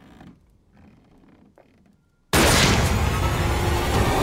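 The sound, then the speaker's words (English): A gunshot in a horror comedy film: quiet, faint creaks and movement, then a sudden, very loud blast that cuts in abruptly and stays as a dense, roaring wash of noise to the end. “Oh, Jesus. You shot the maid.”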